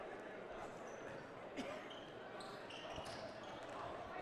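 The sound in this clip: A basketball is dribbled on the court during a boys' high school game between Exeter and Governor Mifflin. A few faint bounces thud beneath steady crowd noise and murmuring.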